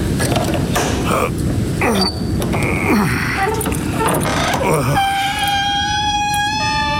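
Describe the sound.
A courtyard gate creaks open, its hinges giving a long, sustained, high tonal squeal near the end. Several seconds of loud, busy clattering noise come before it.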